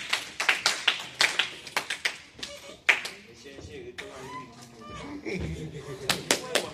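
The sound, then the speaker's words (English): Hands clap for a speaker after a prepared speech at a speaking-club meeting. Sharp, separate claps ring out for about three seconds, then a voice begins talking. “Big round applause to Steffi once again.”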